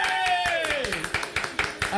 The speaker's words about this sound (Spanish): Un aplauso para GGA.